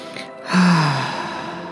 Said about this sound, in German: Und so nimm jetzt einen tiefen Atemzug.